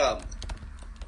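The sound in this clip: Typing on a computer keyboard: a few quick, quiet key clicks in an uneven patter, faint overall.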